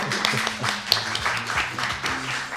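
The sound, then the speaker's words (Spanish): Audience applause: a dense, steady patter of many hands clapping, with a voice speaking over it throughout. “¿Pero qué coño estáis aplaudiendo, joder?”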